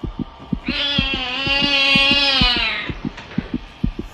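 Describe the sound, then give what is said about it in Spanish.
A cat lets out one long, drawn-out meow in an eerie horror setting. A loud, steady thumping like a heartbeat pulses underneath before, during and after the call. “Ese maldito gato otra vez.”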